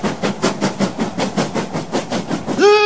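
A train running along rails, its wheels beating a steady clickety-clack of many even, rhythmic pulses, loud and alone, then breaking into a bright tonal whistle at the very end.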